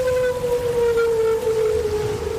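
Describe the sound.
Long, drawn-out humpback whale call captured by a hydrophone and played over a loudspeaker: a sustained moaning tone with faint overtones slides slowly downward in pitch above a constant noisy hiss.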